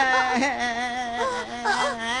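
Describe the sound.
A cartoon character whimpers and sobs in a continuous, wavering moan, the tearful pitch wobbling without pause.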